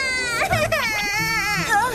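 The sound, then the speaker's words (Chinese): A small girl crying at a meal table, a wavering, high-pitched wail whose pitch bends up and down over about two seconds, sounding loud and continuous. “都怪你们把我妹妹给惹哭了。”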